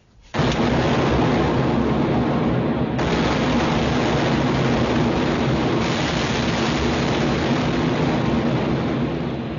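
Naval ship cannons fire a broadside: a sudden loud onset gives way to a continuous heavy roar of overlapping blasts and gunfire, steady and unbroken to the end, with no voices.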